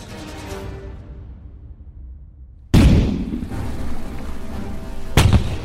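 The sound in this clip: Cannon fire from sailing ships in a sea battle: a low rumbling tail fades away, then two heavy booms burst out a few seconds apart, each trailed by a loud, sustained roar.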